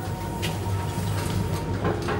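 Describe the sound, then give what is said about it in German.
An elevator door sliding open on the way up to an airport control tower, a low, even rumbling glide over a faint constant hum, with a few light clicks. “Etage 3. Türe öffnet.”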